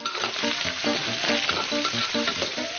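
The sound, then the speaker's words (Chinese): Cured smoked pork slices and choy sum stems are stir-fried over fierce heat in hot oil with red chili and soy sauce, giving a steady, dense sizzle with rhythmic stirring throughout. “适量酱油调色，白菜苔的茎秆被油脂浸润，猛火快炒间，咸香与清甜交织。”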